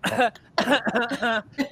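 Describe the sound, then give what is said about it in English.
A person demonstrates their family cough with a short series of throaty, partly voiced coughs: a single burst first, then a quicker cluster of several more. “I have the same cough as my mother. It's one, followed by two, followed by”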